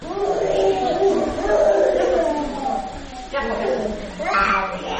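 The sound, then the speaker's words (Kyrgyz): Crying of a sick child with a fever that will not come down, in an infectious diseases hospital in the capital: a continuous, strained wailing cry that rises and falls, loud and sustained throughout. “Бул ыйлап жаткан бала сасыктуу болуп, дене табы түшпөй, башкаладагы жугуштуу оорулардын ооруканасына түшкөн жүздөгөн наристелердин бирөөсү эле.”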